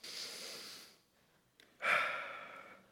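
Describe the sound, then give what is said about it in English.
A group at a morning gathering takes a slow, deep breath together, heard as long airy rushes of breath separated by a brief quiet gap, the second one stronger. “So just let's just take a few deep breaths together just to slow down. Just one more. In.”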